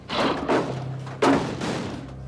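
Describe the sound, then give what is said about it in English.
Heavy thuds of a door being slammed shut as people run into a cantina, a few loud, dull impacts with the sharpest blow near the end. “Earl and Kate run into the cantina and slam the door shut.”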